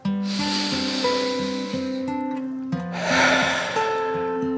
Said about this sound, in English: Allie took a deep dragon breath in and out.